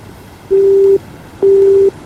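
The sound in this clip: Telephone busy signal: two steady mid-pitched tones, each about half a second long with a short gap between, as a call fails to get through.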